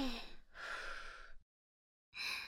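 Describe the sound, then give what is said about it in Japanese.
Deep breaths drawn and let out during a morning breathing exercise: soft, breathy rushes of air, one long exhale in the middle, a pause of silence, then another breath starting, with no talk. “大きく深呼吸して、朝の新鮮な空気を体にいっぱい吸い込んで。で、吐いて。”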